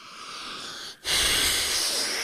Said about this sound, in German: Gott, war das ein langes Schnaufen.